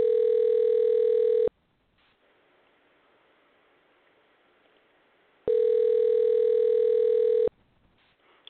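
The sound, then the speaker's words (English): A telephone tone sounds while calling someone, as two long, steady, loud tone bursts separated by a few seconds of faint hiss. “let's see if we can dial him up.”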